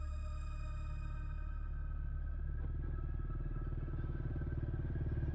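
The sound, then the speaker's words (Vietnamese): A motorbike carrying a passenger rides along with a steady, continuous engine drone. The low rumble is layered with buzzing harmonics and holds an even level throughout, with no voices. “Ông Kỳ nói Phương lấy xe máy của Cường chở mình xuống xã An Thọ.”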